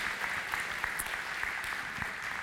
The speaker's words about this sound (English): Can we give him a huge round of applause for being willing to share here this morning?